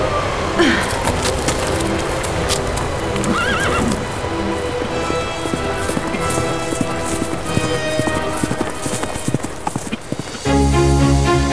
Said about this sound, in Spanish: ¡Bien, mi caballito! ¡Vamos a llevar a este muchacho a Nicoya!